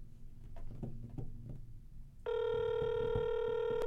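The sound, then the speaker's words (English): Ringback tone of an outgoing telephone call: a steady, loud electronic ring tone starts about two seconds in, after a stretch of low background noise, and holds unbroken to the end. “Hopefully he has voicemail. It seems to be a lot of rings.”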